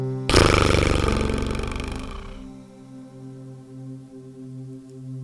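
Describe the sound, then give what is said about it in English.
A long, slow, loose-lipped exhale, a person imitating a motorboat during a movement meditation: one rough, buzzing lip-trill burst of about two seconds that fades out, over soft, steady background music. “now finish with a long, slow, loose lipped exhale like a motorboat”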